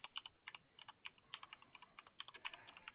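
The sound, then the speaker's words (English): Typing on a computer keyboard: many quick, quiet key clicks in an irregular rhythm, with short bursts and brief pauses, and no voices. “Sorry, I'm typing.”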